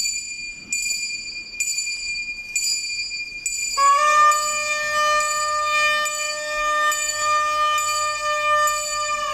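A small bell rung during a tiny pre-dawn Holy Week procession of three penitents in Bonilla de la Sierra, Ávila. Bright metallic strokes come at a slow, even pace, with each ring carrying on after the strike.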